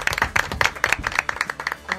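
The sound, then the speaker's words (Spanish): Warm applause for a guest: many distinct claps from a small group in a quick, irregular rhythm, fairly crisp and moderately loud. “Y un aplauso, ¿no?”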